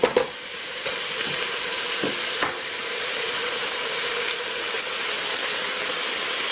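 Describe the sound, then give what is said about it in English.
Eggs cracked into vegetables in a pan and stirred: a steady frying sizzle and hiss runs throughout, marked by a few brief sharp clicks near the start and once midway. “Crack our eggs in there. And then we're gonna stir.”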